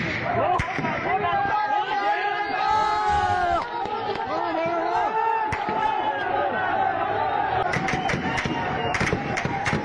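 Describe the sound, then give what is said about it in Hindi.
Crowd of people shouting loudly at a protest in Muzaffarabad amid gunfire. Many voices yell and chant at once in a dense, continuous roar, with a few sharp bangs standing out near the end. “आप गोलियों की आवाज भी सुन सकते हैं और लोगों का चिल्लाना भी सुन सकते हैं।”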